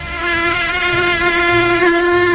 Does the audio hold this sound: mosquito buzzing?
yes